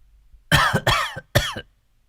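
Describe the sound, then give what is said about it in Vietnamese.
Harsh coughing from an old man who blames the change of season, three loud, rough bursts in quick succession over about a second, then quiet. “Xin lỗi thầy, dạo này thời tiết nó đổi mùa, tôi ho.”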